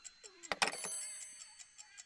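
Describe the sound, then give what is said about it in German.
An alarm clock ticks in a steady, faint, regular rhythm, broken by a brief clatter and a short rising whistle-like tone, with no talk. “Tick-Tack, Tick-Tack. Hey, der Wecker ist rund.”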